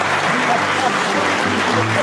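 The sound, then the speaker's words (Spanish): Applause from an audience: a steady, dense wash of clapping that holds an even loudness throughout, without clear breaks or individual claps standing out. “Después vamos a aplaudir.”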